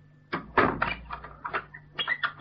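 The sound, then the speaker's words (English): A door is pulled shut, giving a cluster of wooden knocks and clattering thuds: a sharp clunk near the start, then several smaller rattling bumps that fade in and out. “Here, close that door.”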